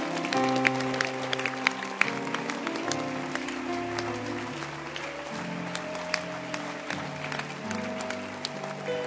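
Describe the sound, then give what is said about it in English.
A church audience claps during a sermon in a fairly quiet, dense patter of many hands. Sustained low music chords shift underneath for the whole stretch. “Don't stop clapping. Who told you to stop clapping?”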